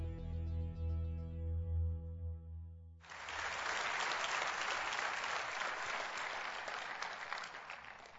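Warm audience applause welcomes a doctor to the stage at a Calvary church gathering. Dense, steady clapping bursts in after a few seconds of sustained music and continues loudly to the end.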